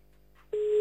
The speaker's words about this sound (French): on y va, on appelle à Bruxelles, cette fois-ci, la capitale. Oui, la capitale. C'est parti. Voilà. Pas sûr que ça décroche non plus